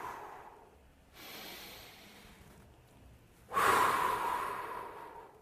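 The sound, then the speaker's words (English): A big, deep breath drawn in slowly and then let out as a longer, louder exhale, taken while sitting calmly without distraction; the soft inhale comes first, followed by a fuller airy breath out, alone with no talk. “I just breathe, taking a big deep breath in and exhale.”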